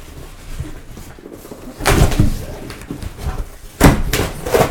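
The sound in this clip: Packing tape is peeled off a package holding a piece of electronic equipment. Two loud, rasping rips stand out, separated by softer handling and scuffing noises.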